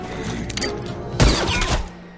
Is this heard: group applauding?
no